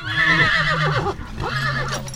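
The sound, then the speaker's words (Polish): A Silesian breed horse in the Podhale region neighs: two loud, long whinnies, each with a wavering, quavering pitch, separated by a brief pause. “Są to konie rasy śląskiej.”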